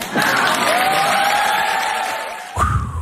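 Audience cheering and applauding, a dense, steady wash of crowd noise with whoops rising above it, ending in a brief louder burst.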